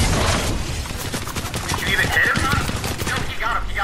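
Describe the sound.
Rapid gunfire in a video game, dense crackling bursts of shots running almost continuously, with people talking over the shooting.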